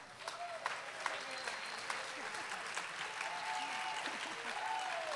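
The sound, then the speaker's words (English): An audience applauds to welcome a speaker at a Fighting Bob Fest kickoff event. The clapping is steady and fairly soft, with a few whoops and whistles rising through it. “Give a warm welcome to Sarah Lloyd.”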